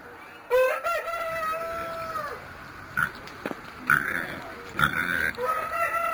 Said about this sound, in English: This is the first time I've heard roosters that make a sound that